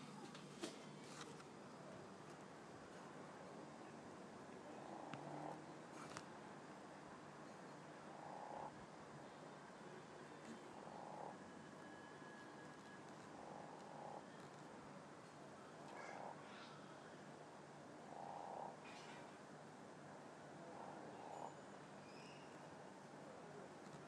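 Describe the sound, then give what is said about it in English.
Faint, regularly spaced croaks from a frog in a garden, a short burst every couple of seconds, about seven in all, over a quiet, steady hiss. “I'm going to try and get you the frog that's in our garden. He's croaking his head off.”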